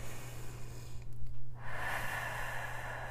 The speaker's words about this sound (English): So we're going to just breathe in deeply and let it out. We're going to breathe in through our nose and out through our mouths.